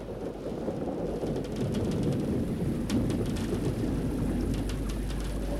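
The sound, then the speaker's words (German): Thunderstorm rain beats against a window pane in a steady, dense patter. A low rumble of thunder runs underneath, and no voices are heard. “Der Regen klatscht gegen die Scheibe. Tropfen auf Tropfen.”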